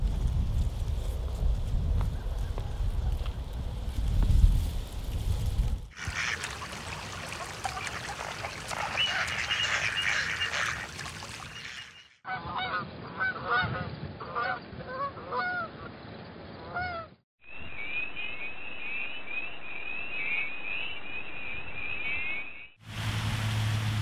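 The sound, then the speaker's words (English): Pond sounds in a run of distinct segments: wind rustling through cattails, then ducks and geese honking in short, repeated calls. There is no talk, and each segment changes abruptly to the next. “If you guessed that all of these sounds can be found at a pond, you are right. Wind blowing through cattails, ducks, geese,”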